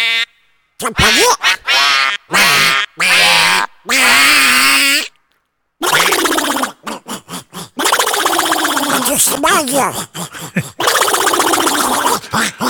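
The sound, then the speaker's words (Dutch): Happy Birthday sung by a chorus of quacking Donald Duck voices, the cartoon duck's squawky tone imitated in loud, choppy bursts broken by brief pauses. “Het Happy Birthday van allemaal Donald Ducks.”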